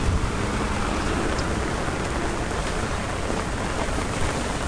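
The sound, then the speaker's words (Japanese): Steady rain falling, a dense, unbroken hiss that holds at an even loudness throughout, with no voices over it. “多分雨の音聞こえてると思いますけどね。”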